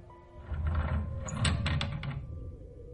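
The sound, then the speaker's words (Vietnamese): A village school window flung open by a sudden strong gust: a swell of rushing, rattling noise builds, a quick cluster of several sharp clacks and knocks sounds in the middle, then it eases away. “Gió từ đâu đột nhiên thổi mạnh, khiến cho một cánh cửa sổ của nhà trường làng bung ra.”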